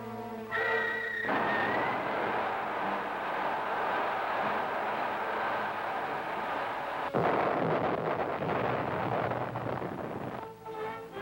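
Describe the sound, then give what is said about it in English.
A missile explosion against the Himalayan mountains: a long, loud, sustained rumbling roar with a sharper burst partway through, framed by tonal sounds at the start and end. “We'll direct a missile at the Himalayan mountains. Pay attention to its great destructive force.”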